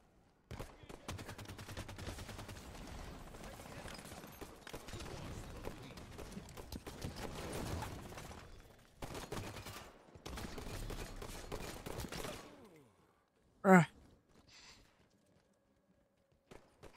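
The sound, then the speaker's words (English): Gunfire from an overpowered assault rifle in a video game: dense, rapid bursts of shots run almost continuously for about twelve seconds with brief gaps, then fade to quiet with one short sharp sound near the end. “This overpowered assault rifle garbage is really chapping me.”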